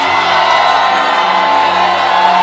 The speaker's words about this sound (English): Clap your hands, all you people. Come on now. Shout with a voice of triumph.